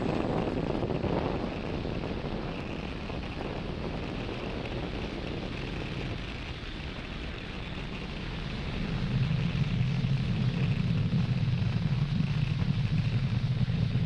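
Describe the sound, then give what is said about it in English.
A Falcon 9 rocket roars as it climbs away from Pad 40 at Cape Canaveral Space Force Station carrying a lunar lander: a continuous deep, crackling rumble that swells noticeably louder in the final third. “Falcon 9 has successfully lifted off from Pad 40 at Cape Canaveral Space Force Station, carrying the iSpace Series 1 lunar lander.”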